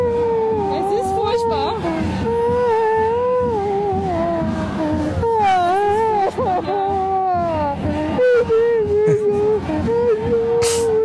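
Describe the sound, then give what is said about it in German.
A man cries, letting out loud, wavering wails and whimpers that rise and fall in pitch almost without pause. “Ist schlimm, oder? Jetzt weint er.”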